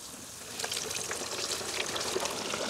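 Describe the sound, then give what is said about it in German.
A breaded, seasoned Franconian carp deep-fries in hot oil, giving a steady, dense sizzling hiss with fine crackles throughout, fairly quiet and without talk. “Ich werde jetzt live für euch diesen leckeren fränkischen Eischgründer Karpfen frittieren. So, der muss gut paniert werden, der wurde vorher schon gewürzt. Genau, jetzt kommt er hier rein.”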